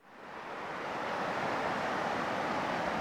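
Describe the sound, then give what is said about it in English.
Ocean waves wash onto a beach in Normandy, a broad continuous hiss of surf that swells over the first second and then holds steady and fairly loud. “I'm here in Normandy, and that is the sound of the waves.”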